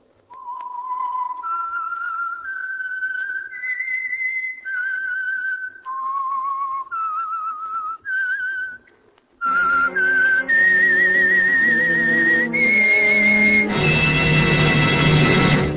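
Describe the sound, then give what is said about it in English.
Whistled identification tune of an oil company radio program: a slow solo melody of long held notes that step up and down in pitch, then continues over a fuller, louder musical accompaniment. “And for Sunday evening listening pleasure, the signal to listen for is this whistle that identifies the Signal Oil program, The Whistler.”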